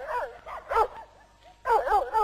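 A dog barks and yelps on a country estate, giving a quick run of high, whiny yaps and whimpers in clusters, with a longer, louder burst of barking near the end.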